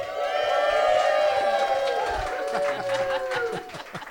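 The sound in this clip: A studio audience cheers on the host's cue, a loud crowd roar with whoops and shouted voices layered over it. It stays strong through most of the stretch, then thins and fluctuates toward the end.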